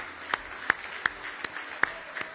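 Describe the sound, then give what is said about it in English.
Hand clapping from a church audience offering praise, heard as about six faint, sharp claps falling in an even, steady rhythm. “Give the Lord a big hand clap of praise tonight if you love him.”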